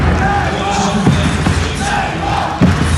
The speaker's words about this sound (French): Et c'est parti pour 4 cartons de 10 minutes, tout ça chante très fort. Les supporters manceaux, les félins vont chanter non-stop.